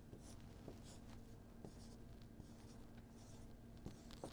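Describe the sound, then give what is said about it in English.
Faint writing on a board: short, scratchy strokes in a few separate bursts with small pauses between, heard alone without talk. “I'm going to write it down for you over here, Iesu. I'll have to write it up here in the corner.”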